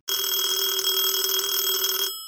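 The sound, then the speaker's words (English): One telephone bell ring, a bright, loud, steady metallic trill lasting about two seconds before cutting off with a short fading decay. “the phone rings at 4 a.m., a little bit earlier than Mr. Jordan was accustomed waking up.”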